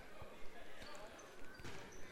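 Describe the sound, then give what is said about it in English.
A basketball is dribbled on a court, giving a few faint, thudding bounces under quiet voices. “They will likely just dribble this one out with 9 seconds to go.”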